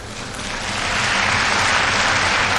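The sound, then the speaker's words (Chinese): An arena crowd at a gymnastics meet cheers and applauds a back handspring balance beam dismount, a broad, loud roar of clapping and cheering that swells over the first second and then holds steady. “后手翻横木落啊，同样是引得了全场的喝彩。”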